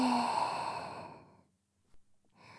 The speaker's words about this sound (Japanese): もっと深く、ゆっくり吸ってください。